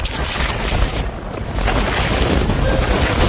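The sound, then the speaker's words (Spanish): Fierce Antarctic wind at thirty below, with gusts up to 135 km/h, roars and buffets loudly and steadily as it flaps an Argentine flag just after a match. “Ahí se escucha como... El viento que había, ¿no? Claro. El viento hacía flamear una bandera de Argentina apenas terminaba el partido.”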